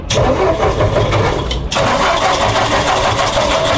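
A 1973 Aro off-road car's engine starting: the starter cranks loudly for about a second and a half, then the engine catches and settles into a steady, loud running.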